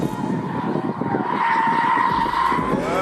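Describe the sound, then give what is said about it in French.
Tires skid and squeal as a heavy Japanese car with a V6 engine drifts through a corner with its electronic driver aids switched off, the engine roaring steadily and loudly throughout. “Mais quand les assistances électroniques sont débranchées, la lourde japonaise devient jolie ballerine, tout en drift. Par-dessus le vrombissement du V6”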